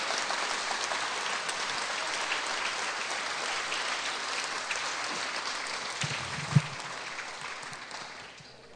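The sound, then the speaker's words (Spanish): A church audience applauds with a thick, rain-like wash of claps that stays steady, then thins and fades toward the end, with a single low thump shortly before it dies away. “Dale un aplauso al Rey.”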